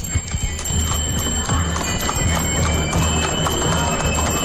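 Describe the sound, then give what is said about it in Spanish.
Horse hooves clip-clop at a steady walking rhythm as horses pull the Sin Pecado carriage in a procession, with people talking over the hoofbeats. “los voy a esperar para que se escuche ese sonido. Si no me equivoco, se escuchan hasta los cascos, ¿verdad?”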